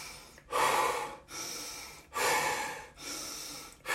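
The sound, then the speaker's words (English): Rhythmic breathwork, drawing air in through the nose and pushing it out through the mouth, repeated in a steady cycle of loud, airy breaths with brief gaps between them and no talking. “You're taking the breath in through the nose and you're exhaling through the mouth.”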